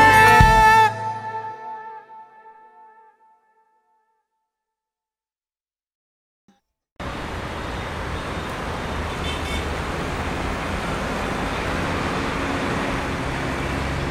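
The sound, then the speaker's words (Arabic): Road traffic noise in a traffic jam. After a fading tonal passage and a few seconds of near silence, a steady, loud roar of engines and road noise begins and holds evenly to the end. “في وسط الزحمة وخنقتها وانت رايح كليتك او شغلك”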